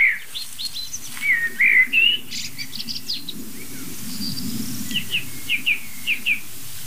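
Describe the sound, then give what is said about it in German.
Chaffinch 'pink' alarm calls: sharp, high, clipped notes, with a few near the start and a quicker run of short repeated calls toward the end, over a steady low background rumble. “Meist sieht man so in der Nähe dieser Pinkrufe entweder noch andere kleine Vögel hektisch hin und her fliegen, die einfach checken wollen, was macht Buchfink so nervös”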